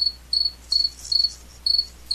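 A cricket chirps in a steady series of short, high-pitched trills with brief gaps between them. The sound is alone, with no voices.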